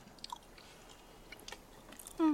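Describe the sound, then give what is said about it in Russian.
Faint chewing of pie, with a few soft, crunchy bites and mouth sounds scattered over a quiet background, then a short louder burst at the very end. “Ешь пирог. Пирог ешь.”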